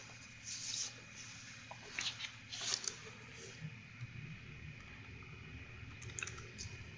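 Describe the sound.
Code being typed on a computer keyboard: a few short bursts of faint, quick key clicks separated by pauses, over a low steady background hiss.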